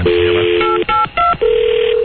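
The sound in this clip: Electronic telephone ring tones heard over a phone line during a call: steady tones broken by a couple of brief gaps and pitch shifts, clear and loud with no voices.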